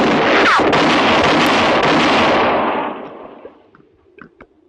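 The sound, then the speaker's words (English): A gunshot fired as a warning in a western confrontation: one loud, sharp blast that rings on for about three seconds, then fades, followed by a few faint clicks. “That enough? Answer me or I'll shoot again.”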